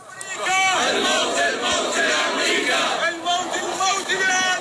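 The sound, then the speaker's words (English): A crowd in Baghdad chants anti-Saudi and anti-American slogans at a funeral for fighters and Iranian security advisors killed in strikes; massed voices shout loudly in rhythmic bursts. “So that was in Baghdad, and the chants are death to Saudi rulers and death to America.”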